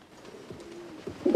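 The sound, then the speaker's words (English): Pigeons cooing in a coop on a hillside overlooking the sea: soft, low, rolling coos, fairly faint throughout, with a louder burst near the end. “unlocks the pigeon coop high up on the hillside overlooking the sea and scoops up a pigeon.”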